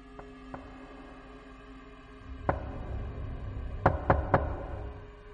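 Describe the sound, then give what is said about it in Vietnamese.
Knocking on a door: one sharp knock, then three quick knocks in a row, moderately loud over a low steady hum, with a couple of faint ticks earlier. “Không có tiếng giả nhời, chỉ có âm thanh lộc cộc phát ra đáp lại bà.”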